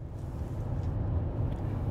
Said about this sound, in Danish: Jeg sidder lige nu i bilen på vej fra DR-byen mod Kirke Hyllinge